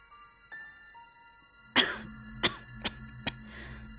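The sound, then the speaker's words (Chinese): A sick woman coughing in a fit: four sharp, harsh coughs in quick succession, the first strongest, then a fainter softer one, over quiet sustained tones. “高金红咳嗽起来，刘姐回了神，忙着帮她捶背”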